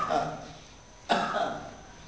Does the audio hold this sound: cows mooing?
no

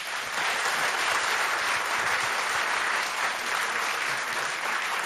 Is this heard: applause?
yes

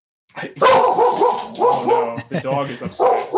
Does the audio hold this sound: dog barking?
yes

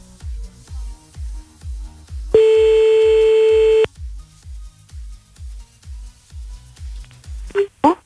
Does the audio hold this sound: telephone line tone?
yes

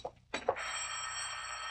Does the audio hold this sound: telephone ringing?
yes

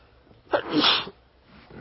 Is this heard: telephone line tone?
no

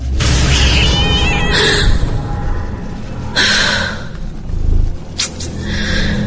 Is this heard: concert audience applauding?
no

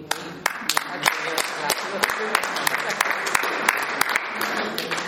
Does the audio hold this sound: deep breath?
no

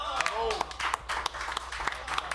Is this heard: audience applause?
yes

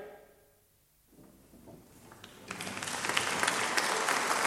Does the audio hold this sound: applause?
yes

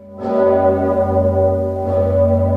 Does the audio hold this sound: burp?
no

